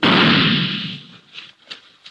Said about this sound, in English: You stick a gun into a pillow or something else soft and... Well, listen.